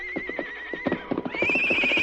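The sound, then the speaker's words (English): A horse whinnies with a high, wavering call that runs through the whole clip and jumps higher about halfway. A steady run of clip-clop hoofbeats sounds beneath it. “Then as Silver whinnied,”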